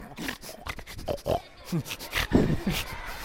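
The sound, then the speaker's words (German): A koala grunts in a run of low, rough, snorting grunts, many in quick, irregular succession, somewhat pig-like and fairly loud with no talk over them. “Was ihr da hört, war das Grunzen eines Koalas. So grunzen die.”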